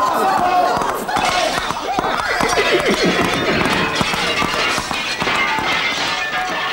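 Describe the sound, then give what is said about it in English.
A pony galloping wildly as a comedy sound effect: rapid, driving clip-clop of hooves with loud whinnies and neighs over a busy, dense mix of noise. “It's the maniac pony!”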